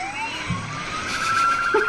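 A police siren wails as cruisers chase a school bus ripping through an intersection. The siren is loud and continuous, with its pitch sweeping steadily upward.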